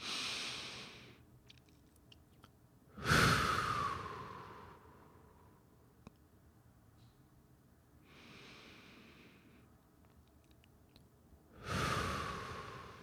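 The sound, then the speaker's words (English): Two slow, deep breaths are taken during a guided meditation. Each has a soft airy phase and a louder, breathy sighing phase, separated by long quiet pauses, with no speech. “let's just take a deep breath here.”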